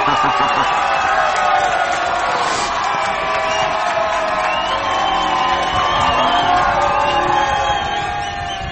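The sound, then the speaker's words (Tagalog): Long applause from an audience, mixed with cheering, whoops and shouts, forming a dense, sustained wall of crowd noise that holds steady and eases slightly at the end. “So, matapos ang mahabang palakpakan, no?”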